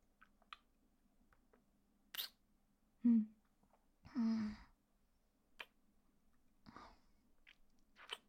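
Chewing and crunching on a tasty treat comes in several separate crisp bites and munches, each short and spaced apart by quiet pauses.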